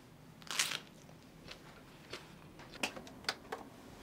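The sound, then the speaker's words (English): Someone bites and chews lunch at home, faint crisp crunches and clicks spread across the quiet clip, with the loudest bite near the start and several smaller ones later. “Sometimes I go out, but today I'm eating at home.”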